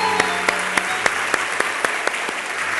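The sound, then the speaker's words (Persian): Seminar audience applauding, with sharp, prominent claps falling in an even rhythm over a dense bed of clapping and a faint sustained tone beneath. “یه دست براشون بزنید”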